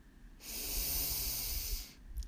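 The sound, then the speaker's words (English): A deep breath drawn in during a guided meditation, heard as a steady airy hiss that lasts about a second and a half and then stops, with no talking over it. “Take a deep breath in”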